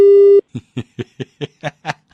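A phone call's disconnect tone after hanging up, a single steady beep lasting under half a second, followed by seven rhythmic bursts of chuckling laughter.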